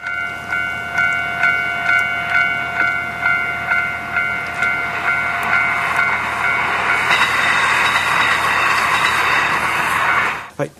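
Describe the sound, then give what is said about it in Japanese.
Railway level crossing warning bell recorded at a real crossing, ringing in a fast, steady, high metallic repeat. A passing train's loud rushing rumble swells underneath from midway, then both cut off abruptly at the end. “携帯スマホにですね、着信音の一つとして、 はい、 踏切音をちょっと入れてるんで、 お ちょっとそれを聞いていただこうと思います。”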